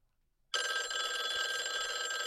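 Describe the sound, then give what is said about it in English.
Telephone bell ringing: after a moment of near silence, a loud, bright metallic trill starts abruptly and carries on without a break. “Oh, it's the Complete Guide phone. Oh, my God. That must be the caller, the special guest caller special that we're guest. Expecting. Should right. I answer? Yeah, okay. Answer it.”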